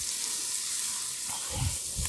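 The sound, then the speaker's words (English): Cabbage sizzling in a pan while being stirred, a steady frying hiss joined near the end by a couple of low scraping bursts as the food is turned. “Pause and give my cabbage a stir here. Make sure it's cooking nice and evenly.”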